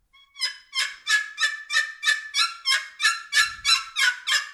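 A hunter deliberately fumbles a hen's squeal on a hunting call, producing a rapid, evenly paced run of many high, raspy notes without a break.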